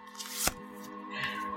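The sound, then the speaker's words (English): A tarot card being drawn during a reading: one crisp card snap with a soft papery slide, then a faint rustle later, quiet over a steady soft background drone. “And let's go to your 10th card, the outcome, the summary of all of the previous cards.”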